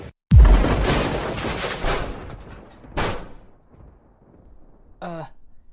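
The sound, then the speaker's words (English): A missile explosion goes off as a sudden loud booming blast with a deep low end that rumbles and slowly decays, followed by a second, smaller burst, then a short vocal sound near the end. “Oh man, is that a missile?”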